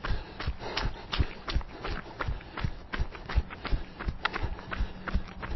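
Jogging footsteps fall in a quick, even rhythm. Many sharp thuds repeat at a steady pace, each one short and clearly separated, with no talking over them.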